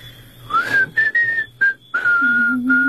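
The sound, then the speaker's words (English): A person whistling a short run of clear, bright notes, some held and some gliding, broken by brief pauses and ending on a longer sustained tone. Loud and alone, with no talk. “Will you show me how to do that? What, whistle?”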